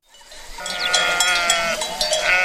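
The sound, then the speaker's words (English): A flock of sheep bleating on a farm in the craggy hills of the Spanish countryside, many overlapping wavering cries that build quickly and continue densely throughout. “Jordi Benegas herds his flock at his farm in the rolling, craggy hills of the Spanish countryside”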